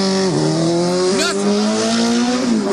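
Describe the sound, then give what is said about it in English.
A car engine with a thin, bass-less sound revs in a steady buzzing drone. Its pitch dips early, surges briefly, settles, and then climbs again near the end, with no talk over it. “Just listen. There's no bass to it. It's just that, crap engine.”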